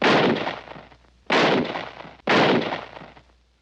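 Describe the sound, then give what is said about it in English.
Three loud gunshots, each a sharp, broad blast with a long decaying tail, spaced about a second apart with no voices. “Shot him as he was trying to run away.”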